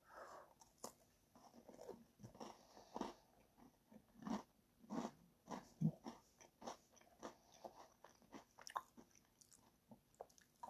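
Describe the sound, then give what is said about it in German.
Biting and chewing a cookie: many soft, crunchy chews in an uneven rhythm, quiet and heard alone without any talk. “habe gerade nur einen Keks gegessen.”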